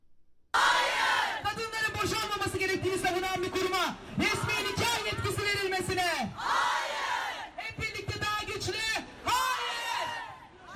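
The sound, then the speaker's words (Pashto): Protesters in Istanbul shout slogans against a parliamentary bill that would let imams perform marriage ceremonies. A loud crowd chants in repeated rhythmic bursts, many voices yelling together with brief dips between phrases. “د ترکی استنبول ښار کې دا احتجاج کوونکي خزه نارې وهي چې دوی به نه غلي کیږي.”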